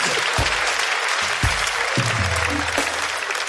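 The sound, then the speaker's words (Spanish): Audience applause for a man at a lively Spanish-language comedy talk, loud and continuous dense clapping throughout, with some low tones mixed underneath. “Un aplauso para el hombre.”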